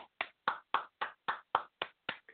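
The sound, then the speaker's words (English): Applause at a football league season kickoff that honours new coaches comes as a steady run of separate, sharp claps, about four per second, each with a brief decaying tail, heard alone. “let's just go ahead and give a huge applause”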